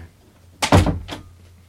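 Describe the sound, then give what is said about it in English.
A door closes quietly with a soft, dull thunk, followed by a brief faint click as it settles, set against low background hum. “You guys can talk, and then you can edit out the very quiet door.”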